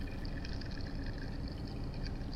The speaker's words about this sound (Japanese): 軽く混ぜてるのに優しくて気持ちのいい音ね。